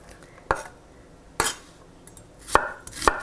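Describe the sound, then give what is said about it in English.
A knife chops across an onion to cut it into small squares, giving four sharp, separate knocks at irregular intervals with quiet between them and no talk. “So just cut the onion lengthwise and then in half, and then I'm cutting it into further lengthwise pieces, and now I'm cutting it across to make kind of small squares.”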